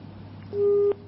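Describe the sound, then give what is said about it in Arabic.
A single steady electronic busy tone sounds once for under half a second as a phone-in call drops, over a low hum. “انقطع الاتصال، ناخذ اتصال ثاني.”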